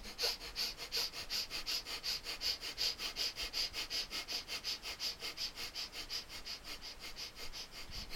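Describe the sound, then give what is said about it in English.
Breath of fire, a rapid yogic breathing exercise: many quick, forceful nasal exhalations in a steady rhythm of several pulses per second. The sharp hissing puffs keep an even loudness throughout, with no talk. “So, breath of fire.”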